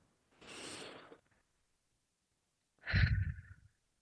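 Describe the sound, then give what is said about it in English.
Two deep breaths from a guided relaxation exercise, separated by a pause: a soft, airy first breath, then a heavier, sigh-like second breath with a low rumble. “And before we start, we breathe in three times. Deep breath.”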